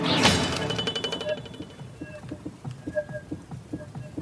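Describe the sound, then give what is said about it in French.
A foley sword strike against a wall: a sharp metallic crash, then a wobbling sheet-metal ring that pulses and warbles unevenly as it decays. “lorsque l'épée tape au milieu, je vais vous le faire réentendre, on entend une espèce de bruit très caractéristique, un goulou de tôle qui ondule.”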